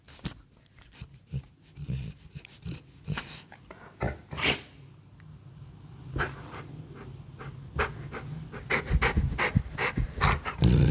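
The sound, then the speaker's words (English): A dog being cuddled groans and pants in many breathy, irregular bursts, some with a low growly edge. The bursts grow denser and louder toward the end. “And when we cuddle him, he starts to groan. He starts to groan because his emotions are so big, and he sounds like Chewbacca.”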